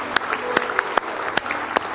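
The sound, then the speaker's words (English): An audience applauds with a hand clap of praise during a church service. Continuous clapping is punctuated by sharp, accented claps landing in a steady, regular beat, like a crowd clapping in time. “Let's give him a real nice hand clap of praise tonight if you love him.”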